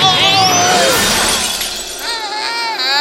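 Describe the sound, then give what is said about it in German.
A glass ball ornament dropped and shattering gives a bright, dense crash of breaking glass that sprawls over about three seconds, with voices sounding over and after the breakage. “Meine Kugel! Er hat die Kugel runterfallen lassen. Knotter, Schlotter. Jetzt ist sie kaputt.”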